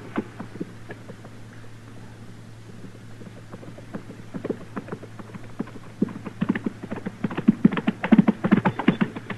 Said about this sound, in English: From the dust it's raising, somebody sure is riding at us in a hurry.